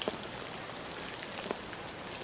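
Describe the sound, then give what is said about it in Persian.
Light rain falls in a soft, even patter, with a couple of slightly sharper drops standing out against the quiet, steady hiss. “بارون گرفت. آره داره بارون میاد.”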